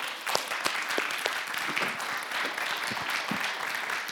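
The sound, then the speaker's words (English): An audience applauds to welcome a guest rabbi, a dense, steady wash of many hands clapping that holds at an even level from start to finish with no voices over it. “So would you welcome friends with me today, Rabbi Joshua Rubenstein?”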